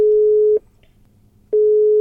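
Telephone call tones sound while someone places a call from a car stuck in a traffic jam: two long, steady, mid-pitched beeps separated by a pause of about a second, loud and with no talk.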